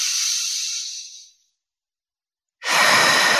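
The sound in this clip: A deep, calming breath: a long, airy, hissing breath fades away to silence, and after a pause another strong breath starts abruptly and holds steady.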